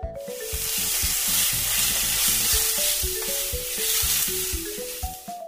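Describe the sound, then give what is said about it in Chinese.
Rice being stir-fried in a wok gives a steady, loud sizzle with stirring that runs unbroken throughout. “Mom is stir-frying rice in a wok.”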